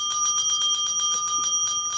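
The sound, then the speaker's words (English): A bell is rung in rapid, evenly spaced strikes for two seconds. It gives a bright, loud metallic trill with steady high tones and no voices. “the bell still works, just checking.”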